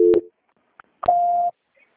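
Telephone call-transfer tones sound as a caller is put on hold: a short loud two-tone beep, a faint brief blip, then a longer steady single-pitched beep lasting about half a second.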